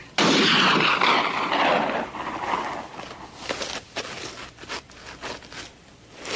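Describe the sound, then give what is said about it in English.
A rifle shot sets off a batch of nitroglycerin that has not fully cooled. A sudden loud blast swells into a roaring rumble that slowly fades, then breaks into scattered crackling pops. “Now, firing a rifle next to the nitroglycerin, and being that it's not fully cooled off, easily could have triggered it.”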